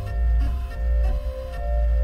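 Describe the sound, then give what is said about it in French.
A 3D printer runs while depositing melted plastic filament through a nozzle as a build plate moves beneath it. A steady mechanical motor hum carries a tonal whine, with slight shifts in intensity throughout. “Autour de la buse, un plateau se déplace pour que le plastique se dépose en créant l'objet dans la forme voulue.”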